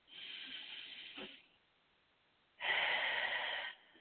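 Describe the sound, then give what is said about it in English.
Slow, deep breaths during a guided breathing exercise. Two airy, hissing breaths are separated by a short quiet pause, and the second breath is louder and fuller than the first. No talking. “Try to pay attention to your breath so you can start to focus on each sensation. Inhale.”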